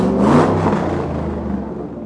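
A petrol car engine running hard, giving a loud, dense rumble and whir that holds fairly level throughout, with no voices over it.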